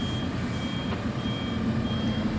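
A truck reverses with warning beeps: a faint, high steady beep tone over a continuous low engine rumble, without pause throughout.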